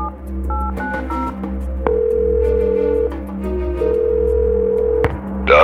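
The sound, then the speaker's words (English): Telephone number dialed through a scrambler: a few quick, short keypad tones, then two long, steady tones separated by a pause, over a constant low hum. “He plugged the scrambler into the telephone and waited for the two devices to shake hands with each other. When they were set, he dialed the Russian's number.”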